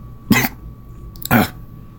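Two sharp, loud coughs, as from choking, each brief and separated by about a second of quiet.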